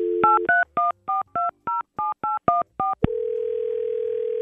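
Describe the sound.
A telephone number is dialed as a rapid run of about ten crisp touch-tone keypad beeps in an even rhythm. A click follows, then a steady, continuous line tone holds to the end.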